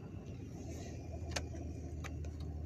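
Car driving, heard from inside: a quiet, steady low rumble of engine and road, broken by a few faint, brief clicks, with no talking.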